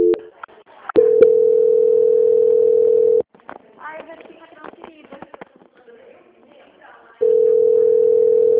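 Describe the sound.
Telephone ringing tone while a call connects: two long, steady, mid-pitched tone bursts, the first a couple of seconds long, separated by a stretch of faint rustling and clicks.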